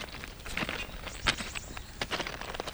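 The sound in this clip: Footsteps climb a slight rise of an old railway embankment, a quiet series of irregular, soft crunching steps spread across the stretch, with no voices.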